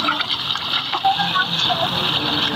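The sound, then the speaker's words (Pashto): River water rushes and gurgles steadily as a ten-litre yellow jug is filled from the Kunar river, a continuous hissing, splashing flow. “لس کیلوي زیړه بوشکۍ په دواړو لاسونو کلک نیولې او د سین لوبوي ډکوي”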